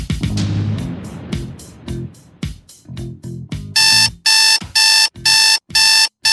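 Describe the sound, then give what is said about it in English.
Alarm clock ringing: irregular clicks and knocks, then a series of loud, shrill, evenly spaced ringing bursts that repeat to the end, with no voices. “You know what that sound is? That's your wake-up call.”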